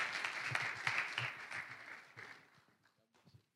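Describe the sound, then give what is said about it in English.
A church audience applauds to welcome a preacher: dense, steady clapping from many hands that gradually thins and fades, ending in a few scattered claps. “Would you put your hands together and welcome Ron Rhodes as he comes?”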